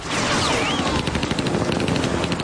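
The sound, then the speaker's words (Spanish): A rapid burst of automatic gunfire rings out during a chase between a jeep and a helicopter. Many quick shots rattle in a dense stream over continuous background noise, with no voices. “Vuelve a sacar el cuerpo por la ventanilla y dispara contra el helicóptero de Escafaro. El sicario responde con una ráfaga que pasa rozando el jeep.”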